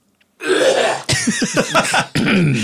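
Throat clearing, a wet, gurgling, spitting sound in the throat. Rough, voiced rasps come in a few fairly loud bursts, with no talk.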